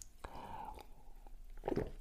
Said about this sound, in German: Entschuldigung, muss kurz mal einen Schluck trinken.